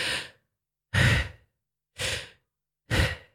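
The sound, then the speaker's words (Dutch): Breathwork breathing by one person: four forceful, airy breaths in a steady rhythm of about one per second, each short and loud with a breathy rush, separated by silence. “En dat is dan vaak een soort van inadem, zo.”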